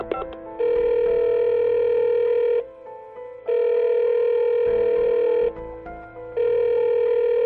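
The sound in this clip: A telephone ringback tone plays while a call is being placed: steady electronic tones about two seconds long, separated by roughly one-second silences. Two full tones are heard, and a third is cut off at the end.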